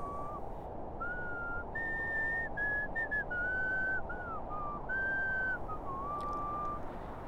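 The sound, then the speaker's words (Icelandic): A person whistles a broken version of a well-known Russian folk song on half-dark winter streets: several short, clear melodic phrases separated by gaps, heard over a steady background rumble. “var hugrökk sál á ferð og flautaði slitrótta útgáfu af víðkunnu rússnesku þjóðlagi.”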